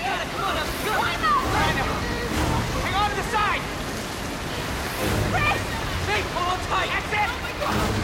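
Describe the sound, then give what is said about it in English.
Water floods into a tank with a dense, continuous rushing and sloshing roar, while voices are heard over it throughout. “Maggie holds onto Connor as the water begins to flood the tank.”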